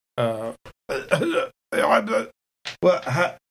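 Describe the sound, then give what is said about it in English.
A voice imitates a strained, wet gargle from a hurt throat, in several rough, raspy bursts with short gaps between them, fairly loud and with no clear words. “So it comes out as more of a gargle”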